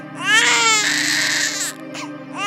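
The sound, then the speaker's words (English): A baby cries in a long, loud, sustained wail that breaks off briefly, then starts up again in another rising cry. “We hear the cry of a baby.”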